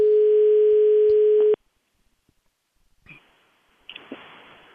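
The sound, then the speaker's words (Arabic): Ringback tone of an unanswered telephone call to a regional director: one steady tone of about a second and a half, then silence broken only by a few faint clicks. “جاوبنا على السؤال سي عمر الصوابني، يمكن عنده شي اجتماع ولا ما سمعش التليفون ولا راه مشغول.”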